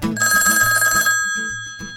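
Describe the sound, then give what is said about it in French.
A telephone ringing with a loud, rhythmic electronic ring pattern repeating over a pulsing low beat, with no voices. “Oh, mon téléphone qui sonne.”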